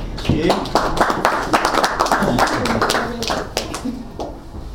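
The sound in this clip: An audience applauds to welcome a guest speaker to an evening talk on stress. Many hands clap densely and steadily at first, then thin out and soften toward the end.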